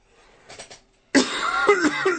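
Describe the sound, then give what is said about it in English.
Coughing: a brief faint sound, then a sudden loud run of harsh, rasping coughs with several sharp bursts that carry on to the end. “Will you knock it off with the coughing?”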